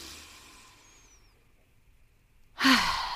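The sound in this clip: Guided breathing in and out, mostly quiet and hushed, then one loud, breathy exhale like a deep sigh near the end.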